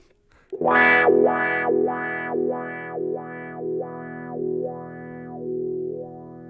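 Distorted electric guitar note shaped by a wah-wah pedal rocked back and forth, producing about eight rhythmic wah-wah sweeps. The sweeps gradually slow and soften as the sustained note rings on alone.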